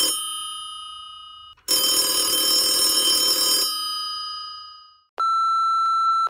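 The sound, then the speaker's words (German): A phone rings on an outgoing call: bright, ringing electronic tones, a dense, loud burst of sound in the middle, then a steady beeping tone near the end, with no voices. “Auf, pass auf, den rufe ich kurz an.”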